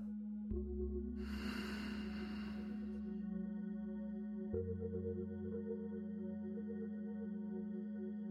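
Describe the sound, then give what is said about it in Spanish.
A slow, airy breath during a guided meditation, a soft rushing inhale that swells and fades over sustained calm musical tones, all at low volume. “Inhala. Y exhala.”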